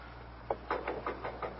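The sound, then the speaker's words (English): Soft knocking on a door by a gloved hand, a series of muffled, gentle raps in an uneven rhythm, faint over a low steady hum. “That's willy-nilly knocking at Bayview. Rack-tack-tack, very soft. The knocker's got a kid glove on.”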